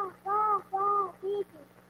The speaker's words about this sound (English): Stoops to feed the ravens when they cry. Here they are in the nest.